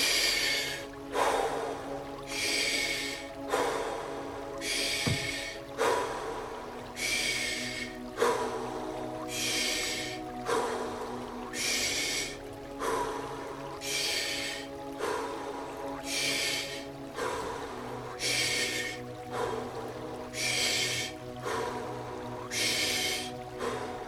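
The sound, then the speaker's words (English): Breathing in and out through the mouth during a breathwork exercise: many loud, airy breath cycles in a steady, even rhythm over a faint, sustained tonal hum. “we're going to do 20 breaths through the mouth. Take an inhale. Now an exhale.”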